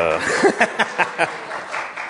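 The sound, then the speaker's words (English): A church audience gives a brief, sparse round of clapping, a handful of separate claps spaced apart, with a voice at the start. “I figured we'd get a little clap over here.”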